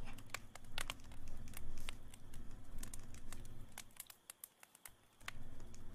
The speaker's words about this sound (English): Let me write that down just so I remember real quick.